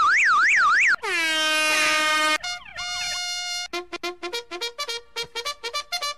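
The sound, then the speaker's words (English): An air horn sound effect blares. A warbling siren-like tone opens, then comes one long, loud, buzzy horn blast, followed by a falling tone and a run of many short, staccato horn bursts. “Oh boy, can we get an air horn?”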